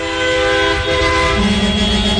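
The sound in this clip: Car horns honk in street celebrations after an election result in Colombia, sustained, overlapping horn tones holding steady over a rumble of street noise, with a lower horn joining partway through.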